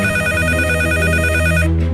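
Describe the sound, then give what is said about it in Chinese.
Shrill telephone bell ringing early in the morning, loud and continuous, stopping abruptly just before the end. “还在睡梦中的钟南山被一阵尖锐的电话铃声惊醒”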